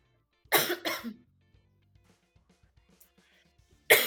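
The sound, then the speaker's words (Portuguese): A person with an itchy throat coughs: two harsh coughs in quick succession, then near silence with faint small noises, and another sharp cough starts just at the end. “a minha garganta começa a coçar e eu perco. Eu vou de novo. Ai, gente, tá passando a tosse, mas ainda não foi embora”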